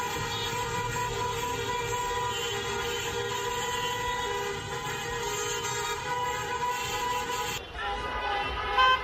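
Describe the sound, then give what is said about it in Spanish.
Car horns honk in the streets of Tehran during protests after a World Cup football match, with several blaring, sustained tones overlapping continuously throughout, then shifting abruptly near the end. “En Irán hubo protestas al finalizar el partido, hicieron sonar los claxons en Teherán”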